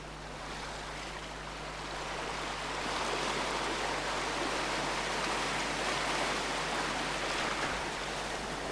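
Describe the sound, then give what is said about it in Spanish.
Sea waves wash in a continuous, broad, hissing roar that swells slightly after the first few seconds and then holds steady, with no voices. “Y bueno, a esta hora hay un sonido del mar.”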